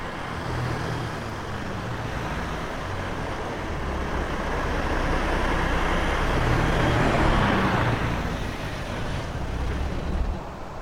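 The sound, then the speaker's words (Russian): A jeep drives slowly along a road through a pine forest, with a steady, broad engine and road rumble that swells a little toward the end and continues without a break. “По дороге неспешно едет джип Олега.”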